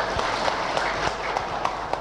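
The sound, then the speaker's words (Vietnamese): Warm audience applause at a Buddhist ceremony: dense, continuous clapping at moderate loudness, even and unbroken throughout. “Xin chụp một mô hình và xin một tràng pháo tay cho nhiệt liệt.”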